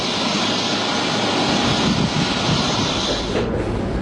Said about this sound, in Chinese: 当地时间下午5时40分许，专机抵达阿布扎比总统机场。